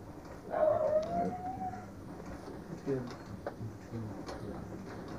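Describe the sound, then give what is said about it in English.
A dog gives a faint, drawn-out whine of about a second, while people talk in the background. “That's a dog.”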